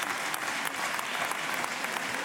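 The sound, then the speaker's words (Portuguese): Applause in the Portuguese parliament during a debate with the Prime Minister: steady, faint clapping from many hands, with no talking over it. “As palmas são pois, dos Sr.”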